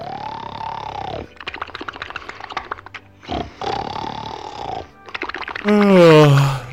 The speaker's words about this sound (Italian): Tuo padre sta già ronfando, lo sento da qua.